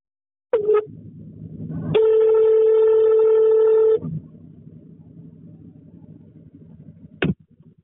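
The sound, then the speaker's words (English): Telephone dialing and ringing on a call from the UK to Castle Rock in the United States: a short dial tone, then a steady ring tone of about two seconds over faint line noise, and a brief final tone. “But these are four examples of what happens if you ring Castle Rock in the United States of America and ask random people, have you seen Bigfoot?”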